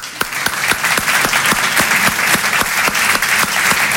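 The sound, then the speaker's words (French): A stand-up comedy audience applauds, clapping their hands in dense, steady, loud applause with many overlapping claps throughout and no talking. “vous allez vite comprendre pourquoi, applaudissez les hétérosexuels.”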